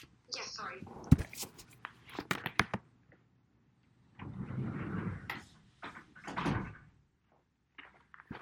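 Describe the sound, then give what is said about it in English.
An office door being shut: a few sharp knocks and clattering bumps near the start, followed by quieter rustling, with voices heard at times. “sorry. Sorry, I need to close my office door.”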